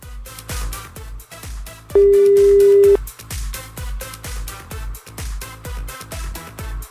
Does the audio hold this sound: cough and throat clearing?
no